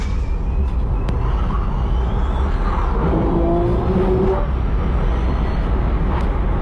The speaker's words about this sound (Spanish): cómo suena un auto eléctrico yendo a fondo en una pista buscando un récord. Es el video del récord del sonido. Escuchen, así suena.